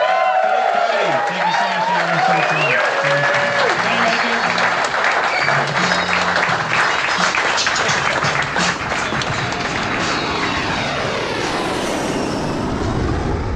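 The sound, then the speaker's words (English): Loud, dense applause rises from the audience at the close of a live show, sustained and even throughout, with voices heard near the beginning. “One more time, big round of applause for Luke Heaney.”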